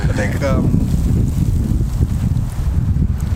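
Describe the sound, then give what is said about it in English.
Wind blowing into the microphone during an outdoor chat about football and gaming, a loud, steady low roar that buffets and masks everything, with voices only faintly present beneath it. “That wind is going to definitely affect the audio, but no, don't mind it.”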